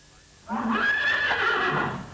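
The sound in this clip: A horse neighs once in a loud, sustained whinny that lasts about a second and a half. The pitch wavers high before the call trails off, and the neigh stands alone with no talk over it.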